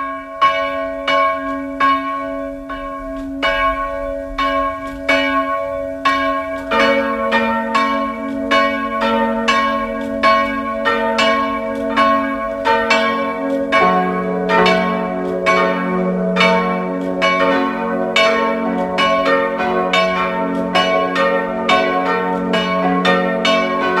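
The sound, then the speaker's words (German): Church bells of the evangelical parish church in Lutzmannsburg, Burgenland, ring at noon in a loud, continuous peal of many overlapping strikes. A deeper bell joins after a few seconds, and the ringing continues steadily without voices. “Es ist 12 Uhr. Sie hören die Glocken der evangelischen Pfarrkirche von Lutzmannsburg im Burgenland.”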